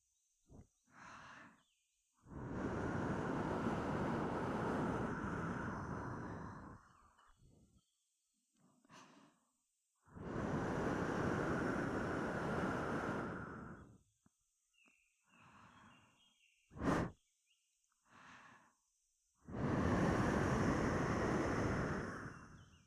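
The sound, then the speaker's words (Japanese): Breath is blown into the ear in three long, steady gusts of soft, airy rushing noise. Shorter faint puffs and small mouth clicks fall in the quiet gaps between the gusts. “お主の耳にまた息をかけてやるのじゃ。目をつむって突風に注意するのじゃぞ。”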